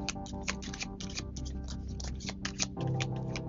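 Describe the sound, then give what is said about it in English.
Tarot cards being drawn one by one from a deck, heard as many crisp flicks and slides of card stock in an uneven rhythm over a steady, low tonal background. “Let's get three cards, please, Spirit. Okay. One card out. Two cards out.”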